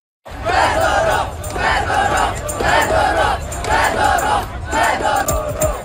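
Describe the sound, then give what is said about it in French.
A crowd of thousands of protesters demonstrating in the streets against a defence minister's dismissal. Loud chanting voices rise in repeated rhythmic waves with a steady roar between them. “Des milliers de manifestants, hein, vous les entendez, sont descendus dans les rues de plusieurs grandes villes du pays pour protester contre son limogeage.”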